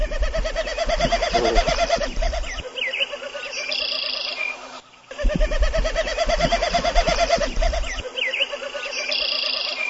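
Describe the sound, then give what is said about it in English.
Drumming of a snipe or pair of snipes on grassland, made with the tail feathers rather than the voice: a hollow, rapidly pulsing tremolo that repeats in long runs over an outdoor background. “This is a sound of a snipe or a pair of snipes.”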